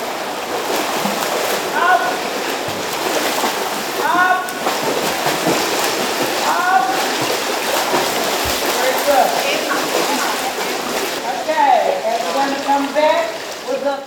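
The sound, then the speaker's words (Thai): Water splashes continuously at a public swimming pool in western Sydney, where women are learning to swim. Voices chatter and call out over the steady wash throughout. “นั่นเป็นเสียงจากสระว่ายน้ำสาธารณะแห่งหนึ่งทางตะวันตกของนครซิดนีย์”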